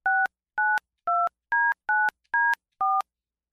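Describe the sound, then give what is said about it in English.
Keypad dialing tones from a digital phone, not a landline: seven short, clear beeps in an even, steady rhythm, heard alone. “you can still dial a call. You can still make a call. So that's, yeah, that's you touching numbers. That's me dialing.”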